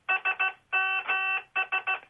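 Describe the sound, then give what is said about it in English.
An old mobile phone's text message alert beeps out SMS in Morse code: three short beeps, two long ones, then three short again, in a bright, buzzy electronic tone with nothing else heard. “that sometimes that SMS beeping on a phone saying that you've got a message.”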